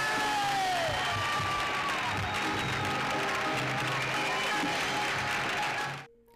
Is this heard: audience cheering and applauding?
yes

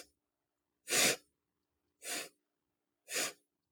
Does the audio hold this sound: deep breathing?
yes

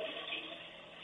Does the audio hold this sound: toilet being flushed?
yes

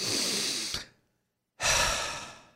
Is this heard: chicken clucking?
no

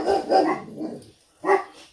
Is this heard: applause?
no

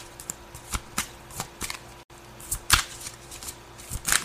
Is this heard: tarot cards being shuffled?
yes

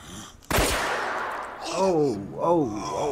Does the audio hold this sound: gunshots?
yes

